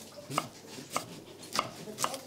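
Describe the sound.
A knife dices an onion on a board, giving four faint, evenly spaced chopping knocks over a steady background hiss.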